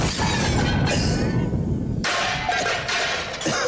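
A grenade explosion, heard as a loud, continuous roar of harsh noise that lasts several seconds and shifts in tone partway through.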